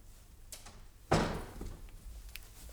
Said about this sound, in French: J'irai fermer la portière.